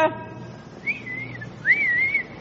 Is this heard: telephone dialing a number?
no